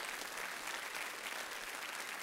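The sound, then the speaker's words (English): Congregation clapping in praise during a church service, a faint, even patter of many hands that holds steady without pause or voices. “Give a hand clap of praise.”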